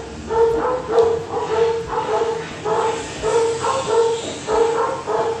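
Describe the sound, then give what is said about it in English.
Dogs bark over and over in a steady, loose rhythm. Each bark is a sharp harmonic yelp, and the barking keeps going for the whole stretch at a fairly even loudness. “Sorry for the dogs.”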